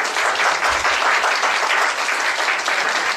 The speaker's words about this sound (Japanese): その場に盛大な拍手を、